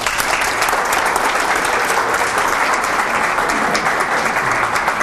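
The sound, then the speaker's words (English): Audience applause welcoming a speaker to an evening lecture series at the Birch Aquarium, a steady, dense clapping of many hands that holds at an even level throughout, with no voices. “Ladies and gentlemen, please join me in welcoming Dr. Joel Norris.”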